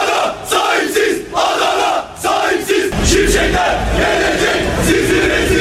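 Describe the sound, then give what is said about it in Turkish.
Football fans chant and shout outside city hall at police and security barricades: a dense, loud roar of many voices with rhythmic surges and swells, and no single speaker standing out. “Polis ve güvenlik engeliyle karşılaşan taraftarlar daha sonra tezahürat yapmaya başladı.”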